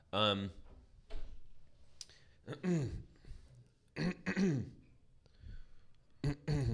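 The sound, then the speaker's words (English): Throat clearing by a person trying to dislodge something stuck in the throat: several rough, harsh bursts alternate with voiced, sighing grunts, loud and irregular in rhythm. “Something's still in your throat, huh? Still got something in there. Can't get that out.”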